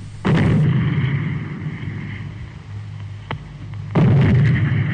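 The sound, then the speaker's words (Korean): Mortar fire booms heavily on a battlefield. Two deep, loud blasts come a few seconds apart with a low rumbling roar between them, and a sharp crack sounds just before the second blast. “영봉정의 검은 기둥 세 개가 치솟더니 종 박격포 소리가 묵직하게 울리었다.”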